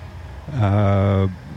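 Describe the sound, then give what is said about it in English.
A truck horn, from one of the Hume trucks joining a street parade in Kempsey, gives a single steady, fairly loud blast of about a second. “We've got the Hume trucks joining the parade. There's three of them”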